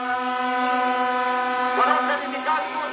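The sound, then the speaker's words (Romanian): Protesting workers with flags and placards blow vuvuzelas in front of a government ministry, making a loud, steady, buzzing horn drone that holds throughout, with a couple of brighter, shriller bursts toward the end. “Aceștia, cu steaguri și pancarte ridicate, suflă din vuvuzele și fluiere.”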